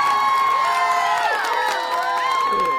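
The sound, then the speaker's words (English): A studio audience cheers in a steady, loud wash of crowd noise. High whoops and shouts rise and fall throughout. “What do you have to say? Our wonderful studio audience.”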